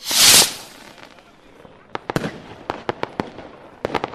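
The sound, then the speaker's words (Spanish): Firecrackers burst inside a burning New Year's effigy of cardboard and wood packed with gunpowder, opening with a loud hissing blast, then many sharp, irregular cracks and pops in quick bursts. “Este muñeco se quema a las 12 de la noche y como tiene pólvora dentro, pues hace mucho ruido.”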